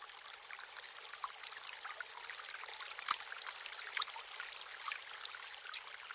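Water flowing at a vineyard irrigation point, a steady, continuous trickling hiss with a few slightly louder splashes scattered through it.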